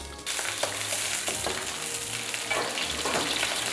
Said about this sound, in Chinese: 放点葱姜爆爆锅啊，还要放上一些花椒，